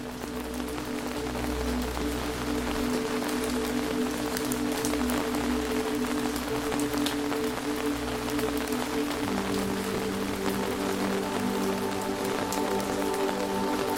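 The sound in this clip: Rain falling in a misty, rain-soaked forest, a steady, even hiss of drops pattering on surfaces that continues throughout over a low, sustained drone, with no voices.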